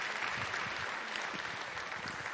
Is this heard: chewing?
no